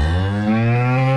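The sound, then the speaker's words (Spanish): A bull lows beside a cow at milking time. One loud, sustained moo carries a deep, rich tone throughout, with no talk over it. “Eso, torito, hágale, que la vaca está ahí.”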